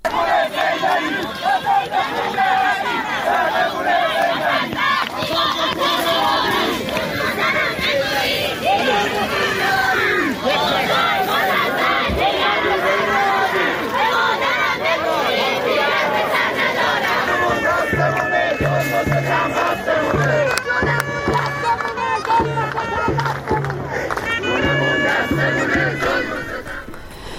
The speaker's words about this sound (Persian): جمعیتی کثیری از مردم اومده بودن در میانی برف و سرمایی که تو ویدیوها منتشر شده دیده میشه. صدای سمیروم رو میشنویم.